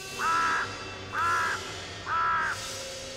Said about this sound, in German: Raben krächzen böse und schauerlich durch den Schlund.